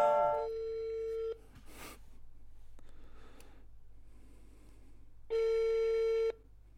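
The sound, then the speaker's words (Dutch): Telephone ringback tone of an outgoing call to an expert: two long, steady electronic tones separated by a few seconds of low hum, with a brief noise burst in the gap. “We gaan niet bellen met je ex. We gaan niet bellen met je per. Maar wij gaan bellen met een expert.”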